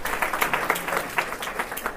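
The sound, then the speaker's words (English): An audience clapping hands to welcome guests at a gathering, with many quick, fairly quiet claps in an irregular patter. “Clap your hands, please, ladies and gentlemen.”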